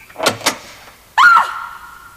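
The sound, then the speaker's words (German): An apartment door on the first floor opens: two quick latch clicks come first, then a loud squeaking creak that holds a wavering tone and slowly fades. “Und dann dauerte es nicht lange, als sich zuerst die Türe im ersten Stock öffnete.”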